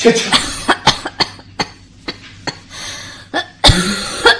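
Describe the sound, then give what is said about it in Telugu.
A woman coughs repeatedly in a loud series of sharp, irregular bursts, a dozen or so spread over four seconds, some of them rasping and throaty, with no talk over them. “ఏంటి దగ్గుతున్నావు”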